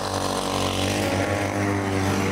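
Steady engine drone of an extravagant homemade motorized bike, pushed to start and running on fresh fuel, holds a loud, even buzzing tone throughout with no pauses.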